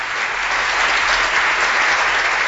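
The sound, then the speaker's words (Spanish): Applause celebrating a colleague's newborn baby: dense, steady clapping from many hands at an even loudness throughout, with no talk over it. “ahí están los aplausos para ustedes.”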